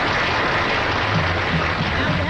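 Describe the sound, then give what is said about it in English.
An audience applauds a married couple, a dense, even wash of clapping that holds at a steady level throughout. “Nice round of applause for Martha Davis and her spouse.”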